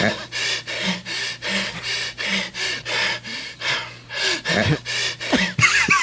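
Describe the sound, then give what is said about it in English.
Breaths from a played-back recording: many quick, airy gasps and pants in a steady rhythm, fairly loud, with a low constant hum underneath. “You just added a couple of breaths there. No, what is going on with this? That is straight out of the recording.”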